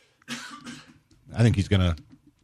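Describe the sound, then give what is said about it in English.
Harsh coughing from someone with something caught in their throat: a rough first burst, then a few louder, throaty coughs that sound like throat clearing, heard alone. “Yeah, I just got something caught in my throat.”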